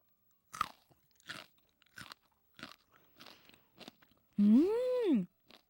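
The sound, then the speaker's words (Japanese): Pickled Narusawa greens crunching as they are chewed: about six crisp, evenly spaced bites, then a voice hums an appreciative rising-and-falling 'mmm'. “今日はスタジオに鳴沢菜漬けが届いています。早速いただきます。”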